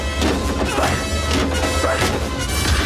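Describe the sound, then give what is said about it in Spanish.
Loud smashing impacts as a kick strikes a truck driver through the cab window, several sharp crashing hits over a dense, rough background. “lanza sus pies dentro golpeando al conductor”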